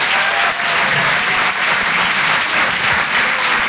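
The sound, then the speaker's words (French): Audience applause at a comedy club: dense, steady clapping from a crowd that stays loud and even for the whole few seconds, with no voices over it. “Faites du bruit, s'il vous plaît, pour Hugo Pêcheur.”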